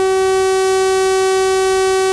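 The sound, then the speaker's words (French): A French SAIP civil alert siren blares loudly as one steady, unwavering tone rich in harmonics. It holds the same pitch without rising or falling for the whole stretch. “Voilà, j'ai arrêté exprès la durée de cette sirène. Pourquoi j'ai passé cette sirène SAIP ce matin?”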